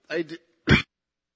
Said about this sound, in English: Sorry, I haven't been able to clear a phlegm this morning.